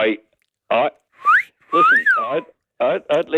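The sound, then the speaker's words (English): A person gives a wolf whistle: a short rising note, then a longer note that swoops up and falls away. Voices talk briefly before and after it. “Are you allowed to whistle girls anymore like we used to in the day?”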